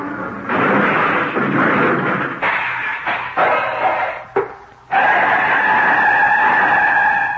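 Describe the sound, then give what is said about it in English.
An airplane motor sputters and conks out while heading down for a forced landing through fog: a loud, rough roar broken by several stuttering drops and gaps, then settling into a steady, tonal drone. “My motor's conking out. I've got to make a forced landing.”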